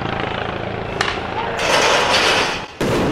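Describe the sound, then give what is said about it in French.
Metal barriers thrown by rioters during clashes near the Arc de Triomphe. Sharp impacts break through a steady, loud roar of noise, with a brief crash around the middle and a heavier burst near the end. “Des casseurs lancent des barrières”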